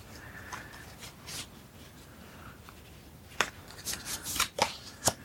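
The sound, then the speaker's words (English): Playing cards discarded from a hand during a solo card game: a quiet papery rustle, then a few sharp flicks and slaps of cards landing, faint, with no talking. “I've just got a 10 of clubs as my top card, and the 10 of spades is my fourth card, so I can discard 4 cards.”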